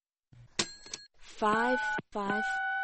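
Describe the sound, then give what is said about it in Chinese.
A telephone being dialed and connecting, with a few short electronic beeps followed by two longer, sustained tones. “电话打通了，那么老板同意给假吗？”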